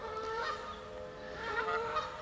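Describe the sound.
Geese honking near a nesting goose, a steady stream of nasal, harmonic calls that swell and fade, with no talk over them.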